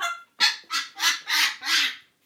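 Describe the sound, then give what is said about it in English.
A pet parrot calling, a series of six harsh, honking squawks at an even rhythm, each loud and rising then falling, heard alone without talk. “I've got my little parrot here. I've got, you know, I've got my little birdie.”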